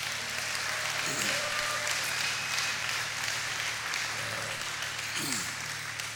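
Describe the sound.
Church audience applauding: a sustained, steady wash of clapping that fills the whole clip at moderate level without a break.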